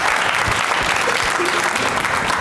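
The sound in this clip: Applause during a points round of a game: dense, steady clapping that runs unbroken and fairly loud through the whole stretch.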